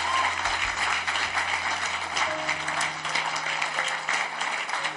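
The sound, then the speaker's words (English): A church audience clapping hands, a dense, steady clatter of many palms over a low hum, continuing evenly throughout. “Give the Lord a mighty hand clap. I said mighty hand clap. Mighty. A mighty one.”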